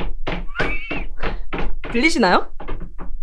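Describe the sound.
A hand taps out imitation horse hoofbeats for a storytelling recording made on a landline phone: many dull, knocking thumps at a quick, even pace, with a short spoken question in the middle.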